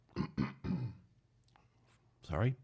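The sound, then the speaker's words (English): Throat clearing: a few quick, rasping bursts close together, then a quiet gap and one final louder, rougher clearing at the end. “Frog in my throat nearly jumped out.”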